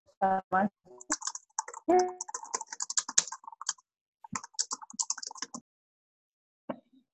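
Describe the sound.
Someone types on a computer keyboard during an online call. Irregular bursts of crisp key clicks come in rapid clusters separated by short pauses, with brief speech near the start.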